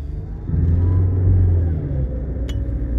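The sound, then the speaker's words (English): A car being driven, heard as a steady low rumble of engine and road noise that swells slightly and continues throughout. “Sorry, people, I'm driving right now.”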